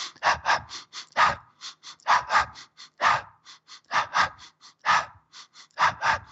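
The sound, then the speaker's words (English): Rhythmic breathing in and out while shaking the whole body with knees slightly bent. Many short, breathy puffs come in repeating groups about once a second, in a steady pulsing pattern with no talk. “And then you start to breathe in and out while you're doing it. So it'd be like,”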